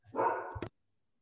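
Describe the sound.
A dog gives a single drawn-out, mid-pitched bark with a yelping quality that cuts off abruptly, followed by silence.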